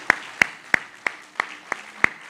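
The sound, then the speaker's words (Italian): Orchestra members clap together for their concert audience in seven sharp, evenly spaced claps, roughly three per second, each a crisp, loud smack with quiet gaps between. “Grazie, un applauso lo facciamo noi a voi.”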